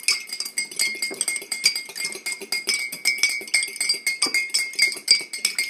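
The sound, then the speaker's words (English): Lemonade being served into a glass: a dense, steady run of many bright glassy clinks and chinks, fairly loud and rhythmic throughout, with no voices. “Our mystery sound was us serving lemonade in a glass.”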